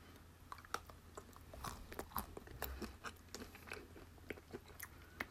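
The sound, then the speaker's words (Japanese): Crunchy chewing of ice cream mixed with Baby Star crispy noodle snack, many quiet crackling bites in an irregular rhythm with no talking. “ベビースターに混ざって、えー、アイスがねあるんですけれどもちょっと食べてみたいと思います”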